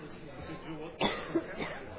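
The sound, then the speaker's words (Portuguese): A short, sharp cough rises during a formal municipal legislative session where bills are being read, followed by a smaller second burst, both over a faint, steady background murmur. “Vai começar minha tosse?”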